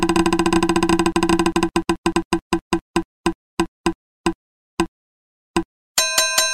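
Prize wheel spinning, its rapid ticking clicks slowing steadily and spacing out into sparse single taps before a bright ringing chime sounds at the end.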